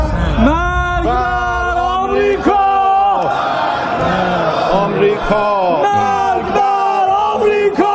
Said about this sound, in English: This is the sound of the Iranian parliament chanting death to America.